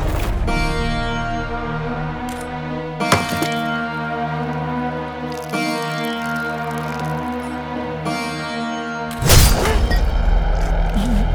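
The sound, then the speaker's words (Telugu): Coconut being smashed to open a land-grab puja: a few sharp whacks over a steady droning musical background, the last crack loudest and fullest. “ఈ కొబ్బరికాయ కొట్టి మీ బంగారులాంటి చేతులతో ఈ భూకబ్జ పూజని ప్రారంభించండి.”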